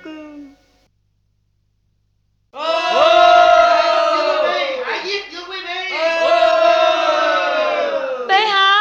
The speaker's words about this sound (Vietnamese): Bệ hạ có nghe gì đó không? Ai khanh ơi, trẫm nghe tiếng của dân chúng đang reo hò tở mở. Họ muốn tràn vào đây để hỏi tội ai khanh.